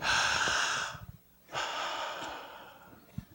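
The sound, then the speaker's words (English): An audience takes a deep breath together: two long, loud rushes of breath with a short quiet gap between them, then a faint brief sniff near the end. “I'd like for you to take a breath. Come on, everybody.”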